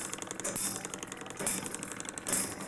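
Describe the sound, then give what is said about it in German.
A guilloché machine's moving cutting steel engraves a freshly lacquered, firmly clamped watch dial, giving a soft mechanical rasping with faint rapid ticks and a few brighter scraping surges at roughly regular intervals. “Das Zifferblatt ist wieder aufgelackt und fest eingespannt. Bei dieser Vorrichtung bewegt sich nun der Schneidstahl und der Stock ist fest.”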